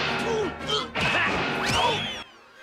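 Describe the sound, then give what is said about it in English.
Cartoon kicks as Daffy and Bugs, dressed in frilly can-can outfits, boot Elmer out of a painting: a rapid burst of whacks and crashing smashes with sliding whistle-like tones over busy music, cutting off abruptly near the end. “Daffy and Bugs kick Elmer out of the picture and curtsy.”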